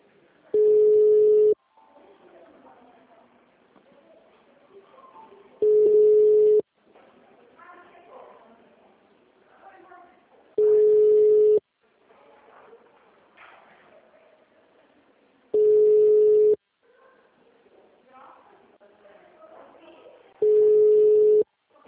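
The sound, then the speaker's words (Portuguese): Ringback tone of an outgoing phone call repeats five times at a steady pace, each a loud, even hum about a second long, with people talking quietly between the tones. “Tá chamando.”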